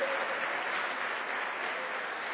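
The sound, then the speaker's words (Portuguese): Audience applause at a Christian sermon as the audience claps for Jesus: a dense, steady wash of many hands that holds evenly for about two seconds, with no speech over it. “Oh, quem concorda, dá um aplauso para Jesus.”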